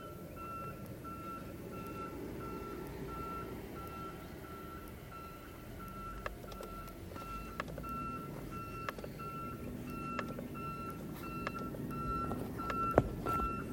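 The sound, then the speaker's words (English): Reversing beeps from a garbage truck: a long, steady run of many evenly spaced high-pitched beeps over a continuous engine rumble, with a few sharp knocks and clanks toward the end. “Are you fucking serious? Fuck you, you stupid ass garbage truck.”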